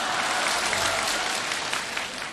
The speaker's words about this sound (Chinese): 你看我们这一上台啊， 啊， 观众报以热烈的掌声。